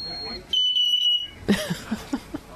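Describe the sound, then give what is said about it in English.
A parrot imitates a fire alarm with one shrill, steady electronic-sounding beep lasting under a second, followed by people talking over the remaining sound. “That's the parrot? Really? Oh, wait. That's the fire alarm. This is the parrot.”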